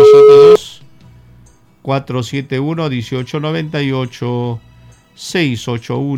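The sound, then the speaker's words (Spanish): A call connecting on a radio phone line, marked by a single loud, steady electronic tone lasting about half a second, followed by a pause and then continuous talk. “Tenemos llamada”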